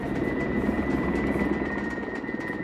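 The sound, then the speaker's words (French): A helicopter arriving at a flood rescue scene where children were swept away by a river, its rotor giving a loud, steady rapid thudding under a constant whine throughout, with no voices. “À 16h30, un premier hélicoptère arrive sur les lieux.”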